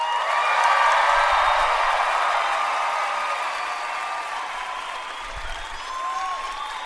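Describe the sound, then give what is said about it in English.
Sustained applause from a live audience in Denver, Colorado, a standing ovation greeting the state's governor. The clapping is dense and steady, eases slightly midway and swells again near the end. “Look at that. Wow. standing ovation.”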